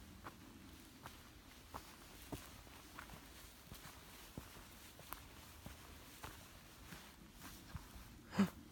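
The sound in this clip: Footsteps walking through a forest in the Harz, faint and steady, with many soft crunching steps at a regular pace and one louder thump near the end.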